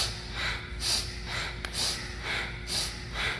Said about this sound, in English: A very precise movement, powerful breath.